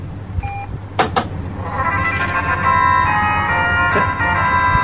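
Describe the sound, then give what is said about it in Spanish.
Final Fantasy fanfare from the video game series, a bright electronic melody of sustained tones that enters after a couple of sharp clicks and holds steady to the end. “sonará la típica música de fanfare de la saga, la típica musiquilla que hemos reconocido 1000 veces en los videojuegos, ¿no? Aquí podéis escuchar, lo tenemos, ¿eh? Podéis escuchar en un extracto del sonido en cuestión.”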